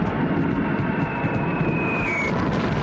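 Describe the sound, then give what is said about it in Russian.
A large group of enemy aircraft flies in over a river crossing: a dense, unbroken roar with a thin high whine that sinks slightly in pitch. “На переправу заходит большая группа вражеских самолетов. Перед ними расцветают белые облачка зенитных разрывов.”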